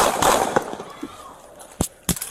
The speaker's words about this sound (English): He's laying on the ground shooting now, sideways.